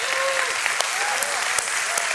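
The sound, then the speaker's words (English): An audience applauds dads at a Father's Day gathering, a loud, steady wash of clapping that keeps going evenly from start to finish. “Come on, let's give dads a big hand on Father's Day.”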